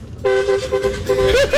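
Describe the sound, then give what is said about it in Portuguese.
A car horn blares in celebratory honking at a mechanic's shop after a football semifinal win. It is a loud, sustained honk with a brief break midway and a wavering pitch near the end. “Estou retribuindo o buzinaço”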